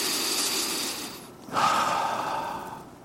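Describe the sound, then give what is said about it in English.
A deep breath drawn in and then let out: a soft, airy inhale followed by a louder, longer exhale that slowly fades. “Take a deep breath in and let it out. Do this with me.”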